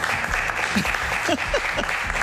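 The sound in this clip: Audience applause at a live radio show in a small space, a dense, continuous patter of many hands clapping at an even loudness from start to finish.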